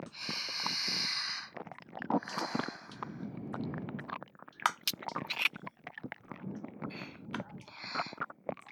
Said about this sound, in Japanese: 喜んでキスさせていただきます。